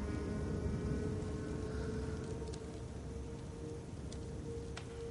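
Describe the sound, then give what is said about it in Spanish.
Heavy rain pours down outside a church portico, a dense, steady hiss that carries on unbroken and evenly loud from start to end. “Ángela, resguardada en el pórtico ante la intensa lluvia que cae”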